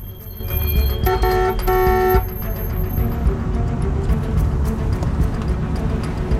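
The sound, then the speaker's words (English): Car horn honking in slow-moving traffic: a brief blaring horn burst of about a second rises over a continuous rumble of engines and road noise, which carries on after the horn stops. “Harry's driving in slow-moving traffic, hooting his horn in frustration.”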